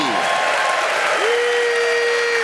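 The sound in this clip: Crowd at the Democratic National Convention in Chicago applauding and cheering, a dense, loud, steady wash of clapping and crowd noise that holds evenly throughout.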